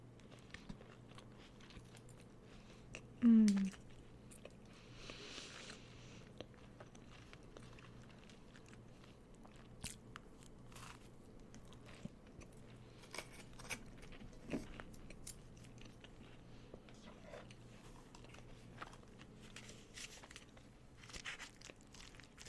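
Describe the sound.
Biting into and chewing a biscuit during an ASMR eating session. One crisp, loud bite comes early, followed by faint, sparse crunchy chewing clicks over a long, quiet stretch.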